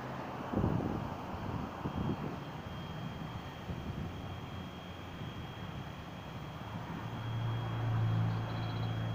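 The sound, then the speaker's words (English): A fixed-wing aircraft passes overhead as a faint, steady engine drone mixed with wind noise, swelling slightly toward the end. “The state is flying over in relevant position, stalking via aircraft.”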